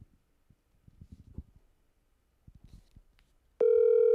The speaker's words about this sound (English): I hope she answers the phone.